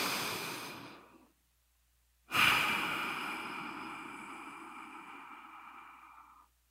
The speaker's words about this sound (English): let's take a deep breath